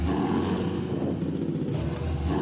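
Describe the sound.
Car engine running as the throttle is applied, giving a loud, steady low rumble with a dense, buzzing tone that holds throughout.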